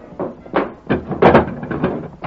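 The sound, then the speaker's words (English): Clunks and scrapes of a wooden bar being lifted from a barred door before it opens, a rapid run of several knocking, rattling bursts with no talk. “Here they come, Ma. Hurry, unbar the door.”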